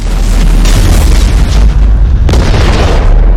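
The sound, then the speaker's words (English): A spaceship explodes in a video game, a loud deep booming rumble that roars continuously throughout, with a fresh burst of noise late in the sound. “And then the whole ship explodes under beam.”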